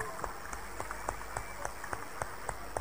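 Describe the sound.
A church audience claps in a steady rhythm of about three claps per second. The claps are faint and regular, set against a soft, noisy background with no clear voices.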